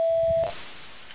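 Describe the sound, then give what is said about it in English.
A voicemail beep sounds as a single steady, pure mid-pitched tone lasting about half a second. It cuts off into a low hiss of open telephone line noise. “If you'd like to leave me a message, please wait for the beep.”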